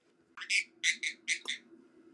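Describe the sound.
Pet bird chirping: a few bright, high-pitched chirps in quick succession, fairly faint, over a low steady hum.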